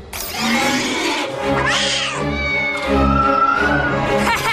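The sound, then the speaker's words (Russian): A small kitten meows in loud, drawn-out, whining calls, a few in a row with little pause between them. “Что? Киска, уйди, я ничего не вижу. Не люблю кошек.”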